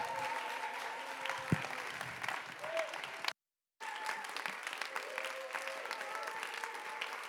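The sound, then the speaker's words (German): Audience applause welcoming a pastor to the stage at a church service: dense, continuous clapping from a crowd, broken by a brief silent gap midway before resuming at the same level. “Pastor René Brede mit einem Riesenapplaus hier zu begrüßen, der K21.”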